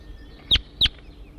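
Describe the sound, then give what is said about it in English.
A wild bird sings two short, high chirps about a third of a second apart. They stand out clearly against a faint, low background. “Start recording the wild bird now in song.”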